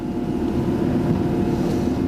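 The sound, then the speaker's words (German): Motorboat engine drone as the boat travels across a bay of the Slovenian sea, a steady, dense low rumble with constant hiss on top, unbroken and without voices. “Gorazd Šinić ist mit mir für eine gute halbe Stunde auf dem Motorboot in diese Bucht gefahren.”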